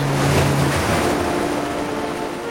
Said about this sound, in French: Les vagues roulent contre les immenses falaises.